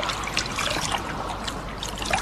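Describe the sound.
River water trickles and splashes into a soldier's forage cap, a soft, steady burbling dribble that runs unbroken and fairly faint.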